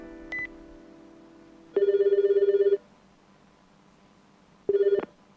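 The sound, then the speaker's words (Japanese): A mobile phone rings after its redial button is pressed. A brief electronic beep comes first, then a steady burst of bright ringing tone. After a pause, a second shorter burst follows. “リダイヤルのボタンを押す。”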